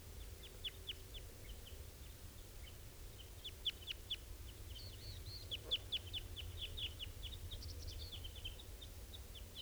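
Adult birds feeding their young, heard as many thin, high chirps and calls, some in quick clusters, faint over a low steady background rumble, with no voices.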